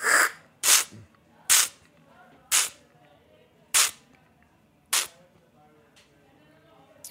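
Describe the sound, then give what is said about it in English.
Olive oil tasting by strapaggio, with oil sprayed through the mouth in six sharp, airy hissing bursts spaced roughly a second apart, then quiet. “you do a method called strapaggio where you create a repetitive spray effect in the mouth so it coats all parts of the mouth cavity, and then you stop, and then you swallow. So it sounds like this.”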